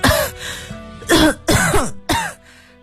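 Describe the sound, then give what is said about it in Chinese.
Hard, forceful coughing from one person: four loud, harsh bursts, the first at the start and three more in close succession near the end, with quiet pauses between them and no speech. “孙刘花拼命咳嗽着，既是给阁楼上的苏峰塔发信号，又是缓解自己的恐慌”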